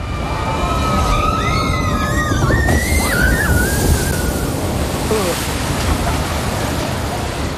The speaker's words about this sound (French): Ça, on entend bien quand même qu'il y a de l'eau, là.